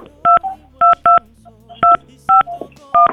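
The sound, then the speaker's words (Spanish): Telephone keypad dialing tones as a number is dialed for a call over a bad line: six short, loud two-note beeps in an uneven rhythm, with a faint low hum underneath. “Vamos a marcarle. Esperemos que sí nos conteste.”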